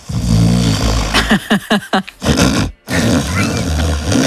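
Snoring of an 80-year-old man who won a nap contest in South Korea: a loud, low rumbling snore, then a quick run of short snorting bursts, a brief pause, and a longer rough, rasping breath.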